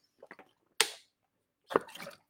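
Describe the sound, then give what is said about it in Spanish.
Sips of water taken by a thirsty man: a couple of faint small clicks, then two louder, short breathy bursts a second apart, with no talking. “Un segundo, un poquito de agua que estoy seco.”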